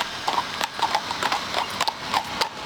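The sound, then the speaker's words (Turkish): Horses' hooves clip-clopping as mounted police patrol at Ankara Castle during a NATO leaders' summit, the horses brought from Hungary. Many crisp, unevenly spaced hoof strikes follow one another in a steady walking rhythm. “NATO Liderler Zirvesi kapsamında 22 farklı atlı birlik Ankara'nın farklı noktalarında görev yapıyor. Bugün de Ankara Kalesi'ndeler.”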